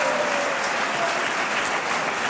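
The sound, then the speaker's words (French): Applause from a studio audience at a radio quiz game, dense and steady for the whole stretch with no break or swell. “Vous vous arrêtez, on vous applaudit, bien sûr.”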